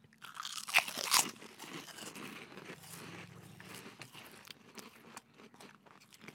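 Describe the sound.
Crunching of an airy, crunchy candy-like snack as it is bitten and chewed. A couple of sharper bites early on give way to steady, faint crunchy chewing.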